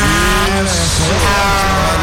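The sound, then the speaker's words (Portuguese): A truck horn sound effect, a loud blare with a rich harmonic tone held steady for the full length. “Toca a buzina de caminhão aí, gente. Aquela buzinaça. Cadê a buzina?”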